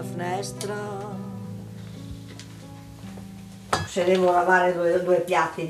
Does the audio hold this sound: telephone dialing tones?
no